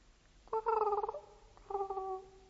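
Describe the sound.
A dove coos in a garden: two soft, tonal cooing calls, the first shorter and the second more drawn out, heard alone with a brief pause between them.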